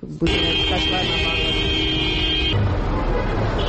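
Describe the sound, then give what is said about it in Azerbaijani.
Car horns honk in a traffic jam along a street lined with queued cars. One long, steady, buzzing horn blast lasts about two seconds over dense traffic noise, and the street noise carries on after it stops. “Küçə boyunca bir-birinin ardınca düzülən maşın kərvanı, aramsız siqnal səsləri”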